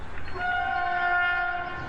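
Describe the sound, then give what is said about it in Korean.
A scenic tourist train on New Zealand's South Island sounds one sustained horn blast over the steady low rumble of the moving carriages. The horn is a bright, stacked tone lasting a little over a second, and nobody speaks. “기차 여행입니다.”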